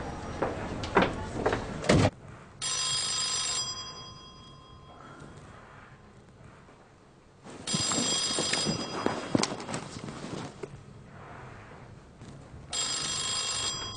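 An emergency telephone ringing in three long, bright bursts separated by pauses, with a few heavy clunks before the first ring.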